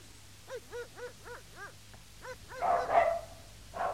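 Several dog barks come in a quick, evenly spaced run, each a short sharp yelp, followed by a louder, rougher burst of noisy sound and one last bark at the end.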